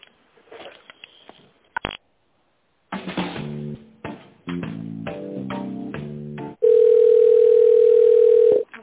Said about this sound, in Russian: Одну секунду, сейчас соединю с главным бухгалтером.